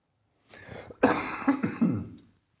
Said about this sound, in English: So that cough you can enjoy on your headphones as you listen to this.